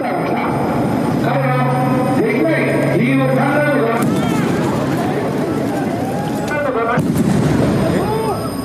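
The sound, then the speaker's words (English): Two loud gunshots ring out about three seconds apart at an outdoor election rally in Nara, Japan, carried on a live TV broadcast, amid steady crowd noise and voices. “Japan's public broadcaster was showing the political event live on TV when Abe was shot.”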